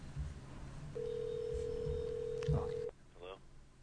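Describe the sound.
A steady telephone tone sounds after a call disconnects: one continuous mid-pitched beep lasting about two seconds, with quiet voices around it.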